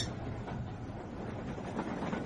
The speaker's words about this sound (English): Thank heavens we managed to catch this train.